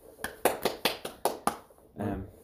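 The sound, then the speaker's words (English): Hand claps mark a round of applause for a colleague: a short run of sharp, evenly spaced claps at a brisk, steady pace, followed by a brief voice. “And yeah, round of applause.”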